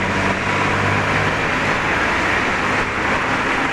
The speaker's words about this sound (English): Cars going every which way. At the intersection of Nelson and Denman.